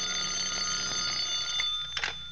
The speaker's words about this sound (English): Until about 1 o'clock in the morning when the telephone started having hysterics on my night table.